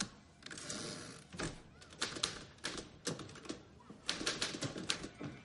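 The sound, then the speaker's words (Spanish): Typewriter keys struck in a newsroom: many quick, uneven clacks, faint, with short bursts and pauses and a few firmer strikes near the end. “mecanografía”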